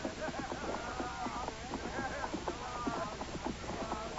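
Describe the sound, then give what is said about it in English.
Hooves of three horsemen clip-clop along at a steady brisk pace, many quick, even strikes forming a faint, continuous rhythm. “three, are coming up behind us. Since you are so modest about the fame of my company, we had best conceal ourselves until they ride past, had we not?”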